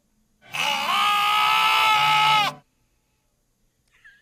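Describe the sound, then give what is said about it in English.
A lamb gives a single loud, harmonic bleat lasting about two seconds, its tone wavering slightly. Silence follows, with a faint, brief sound at the very end. “It is a bleating lamb.”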